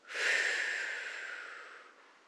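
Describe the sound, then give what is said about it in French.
A full exhale through the mouth, one long breathy rush of air lasting about two seconds that swells quickly and then tapers off gradually. “Inspirez maintenant. Et en expirant, soufflez bien par la bouche, expirez complètement, comme ceci.”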